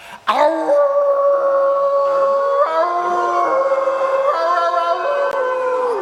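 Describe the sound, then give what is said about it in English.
A human voice imitates a wolf howl in one long, sustained, tuneful cry. It starts sharply, holds steady and loud, and steps up and down in pitch a few times. “The trick to howling is really just visualize your head turning into a really cool wolf, and then,”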